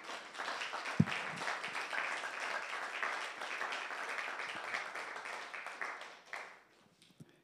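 A church audience applauds in acclamation to God during a service: dense, steady clapping that holds for about six seconds, then thins and fades to near silence.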